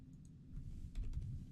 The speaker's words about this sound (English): And if we wanted to search down for that specific file type, we could type in file type like this. And we can do dot, or we can just type in XLSX like this.